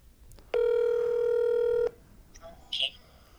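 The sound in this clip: A telephone ringback tone on an outgoing call sounds as one long, steady buzzing ring lasting over a second, followed by a few faint brief sounds.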